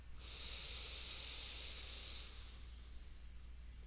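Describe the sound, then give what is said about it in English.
A deep inhale through the nose during a guided breathing exercise: one long, steady, airy hiss that holds for about two seconds, then thins out and fades, with no talk over it. “Shoulders melt back, and we'll do another inhale through our nose.”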